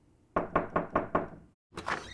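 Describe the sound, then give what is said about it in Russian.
Knocking on a door: five quick, firm raps in an even rhythm, then, after a short pause, a rougher, scuffing knock. “Сии размышления были прерваны нечаянно тремя франмасонскими ударами в дверь.”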